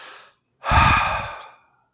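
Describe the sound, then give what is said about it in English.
A voice imitates someone exhaling right beside a listener's head, producing a soft, airy breathy hiss. A brief faint puff comes first, then a longer, fuller exhale that tapers away. “I very clearly heard what sounded like somebody exhaling right next to my head.”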